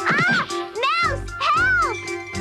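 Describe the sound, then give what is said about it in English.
Meows from a cat toy: a few drawn-out, wavering cries in quick succession, loud and tonal with bending pitch. “It's only a stupid cat toy.”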